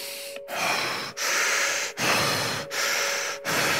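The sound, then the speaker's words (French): Deep, fast, rasping breaths from a person doing a meditation breathing exercise, loud and hoarse with a hissing, airy texture, each breath running almost straight into the next, about five in a row. “Et pendant que vous grimpez, commencez à halter de façon rugueuse, profonde et rapide, comme ceci.”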